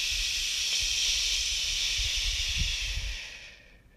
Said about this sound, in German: Jetzt lässt du wieder locker, lässt den Atem wieder rein und atme wieder aus.